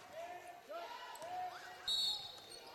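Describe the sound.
A basketball is dribbled on a court during a game, its bounces faint and irregular under a steady wash of crowd noise and voices.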